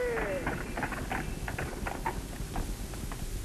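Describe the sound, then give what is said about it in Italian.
Hooves of a horse-drawn carriage arriving: many quick, regular clip-clops in a steady rhythm, fairly faint against a constant low background hum. “Silenzio. Una carrozza. Saranno quegli altri.”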